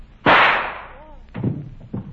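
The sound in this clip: A single loud gunshot in a radio drama, a sharp crack with a quickly fading tail, followed by quieter rustling sounds.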